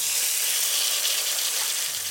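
A ribeye steak sizzling in a chef's hot pan in a basement kitchen: a steady, bright hiss of searing fat, loud and unbroken for about two seconds.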